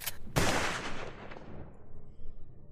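Gunfire sound effect for bullets fired at a leathery-skinned creature in a tabletop role-playing game: a quick sharp burst, then a louder blast, trailing into a long fading rumble, with no voices.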